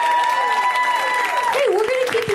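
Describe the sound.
Applause from a comedy show audience for a comedian: dense, steady clapping and crowd noise fill the whole stretch without a break.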